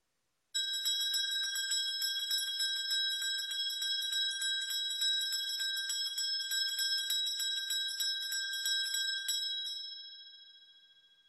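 A chairman's electric bell rings in a political assembly, a continuous high, shrill metallic ringing that holds steadily for about nine seconds and then fades away, with no voices.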